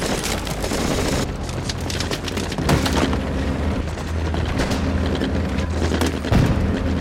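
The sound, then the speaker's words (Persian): Gunfire during a battle as soldiers keep shooting: dense, continuous bursts of loud shots and heavy booms overlap with no pause. “به شلیک ادامه بدین، پایین بمونید، پایین بمونید، به شلیک ادامه بدین.”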